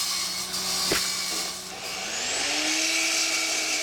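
A power tool cuts metal angle joints, giving a steady, grinding whine with a bright, high edge that shifts slightly in pitch as the blade bites.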